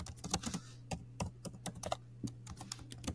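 Faint typing on a computer keyboard: a quick, irregular run of light key clicks with no talking.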